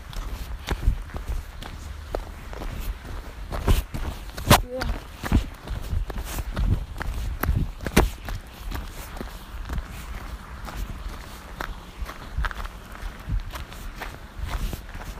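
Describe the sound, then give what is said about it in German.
Footsteps of a person walking along a narrow gravel path, a long run of irregular crunching steps at a fairly quiet level, some landing harder than others. “Ich laufe und laufe und laufe und laufe.”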